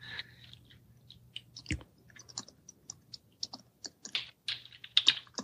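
Typing on a computer keyboard: many quiet, irregular keystroke clicks in short bursts and pauses, with a faint low hum beneath.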